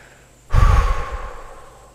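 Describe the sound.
A deep exhale out through the mouth during a guided breathing exercise: one long, airy breath that starts abruptly, loud and breathy at first, then fades gradually over about a second and a half, with no talking.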